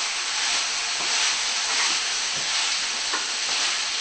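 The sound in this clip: Tofu hitting a hot pan and being stirred gives a loud, steady sizzle with a dense hiss that holds even throughout, and no voices.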